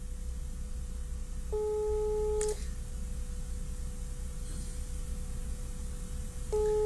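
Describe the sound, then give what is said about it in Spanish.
A telephone ringback tone repeats on an unanswered call: about one second of steady, low buzzing tone, a long gap of several seconds, then the tone starts again. A faint constant tone and line hiss run underneath. “Y le marca uno, no contesta.”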